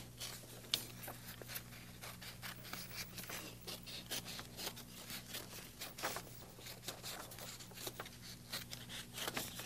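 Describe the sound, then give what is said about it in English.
A piece shaped like a shoe sole is being cut out: many quick, faint rasping snips and rubs follow one another in an uneven but steady rhythm. “Cutting what might look like the bottom of a shoe, you know, the sole of a shoe.”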